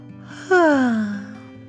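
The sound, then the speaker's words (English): A human voice imitates a bunny yawning in a bedtime animal story. It is a single voiced yawn that starts abruptly and slides down in pitch over about half a second, heard over a steady low background tone. “A bunny yawned.”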